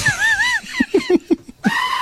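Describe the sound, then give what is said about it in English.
A goat screaming, from a viral video: a loud, wavering, human-like scream, followed by a run of short, lower grunting bleats, then another cry starting at the end. “Screaming goat video is going viral.”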